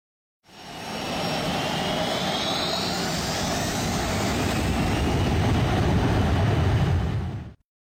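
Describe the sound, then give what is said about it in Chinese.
An airliner roars on takeoff. The steady, broad jet-engine rumble fades in, grows slightly louder and ends abruptly, with no voices. “接下来就请您放松身体，静静等待，我们的航班即将起飞。”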